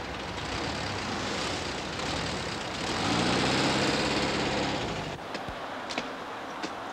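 A vehicle engine runs as it drives on, giving a steady broad rumble that swells slightly midway, then drops back, with a few faint clicks near the end.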